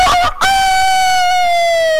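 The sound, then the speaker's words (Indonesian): A rooster crows at night: one long, loud, sustained crow after a brief broken start, its pitch sliding slightly downward as it holds. “Koko ayam ya. Itulah dia semangat koko ayam walaupun malam tetap berkoko ya khasnya.”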